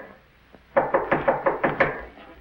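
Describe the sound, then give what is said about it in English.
Seven quick, evenly spaced knocks rap on a door, loud and sharp, after one faint earlier tap. No voices accompany them. “When Watson answers the door, a young woman enters hurriedly and slams the door behind her.”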